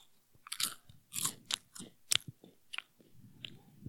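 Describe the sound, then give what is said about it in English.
Crunchy biting and chewing meant to mimic eating a pickle, as in eating ASMR: many sharp, irregular crunches and moist chewing clicks in close succession, heard alone with no talk. “there's a whole entire section of YouTube for people who do eating ASMR. They usually do noodles and pickles. Pretend this is a pickle.”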